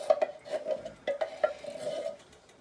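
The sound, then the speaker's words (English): Faint clinks and scrapes of a utensil against a pot as crushed tomatoes are stirred, with a few irregular knocks over soft, continuous scraping. “And give it a stir.”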